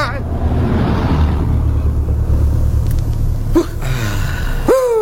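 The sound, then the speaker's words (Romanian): A Fiat car overtaking on a road without signalling: a continuous, loud low engine rumble with road noise, broken late on by two short tonal squeals. “Ia uite-te cum depășește Fiatul ăla fără să semnalizeze.”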